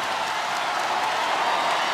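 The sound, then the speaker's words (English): Loud, sustained crowd noise from fans at a college women's basketball game, Stanford's win over Oregon State, celebrating their coach's record-breaking victory. It forms a dense, steady roar with no clear breaks. “This crowd can feel it, and they are chanting Tara.”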